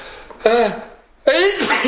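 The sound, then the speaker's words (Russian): Two loud, voiced sneezes from someone with a head cold, each a sharp burst with a brief tonal onset, separated by a short pause. “Прекрати чихать, надоело.”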